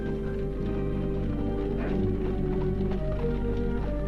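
Hoofbeats of a horse pulling a carriage, a soft, steady clip-clop under a continuous tonal background, kept at a low level throughout.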